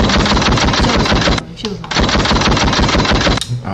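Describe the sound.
A gunshot sound effect of rapid, loud automatic fire: dense, continuous bursts in two long runs split by a brief gap, with a short burst at the end.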